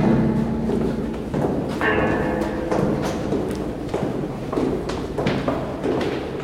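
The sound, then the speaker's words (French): Footsteps descending a staircase that doubles as a musical instrument, producing a long run of thudding steps, some ringing with short pitched tones. “Alors, c'est un escalier, mais c'est aussi un instrument de musique.”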